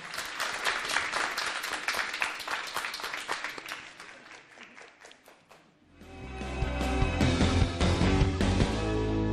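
Audience applause on a game show after an archery round, dense clapping that thins out toward the middle before music takes over.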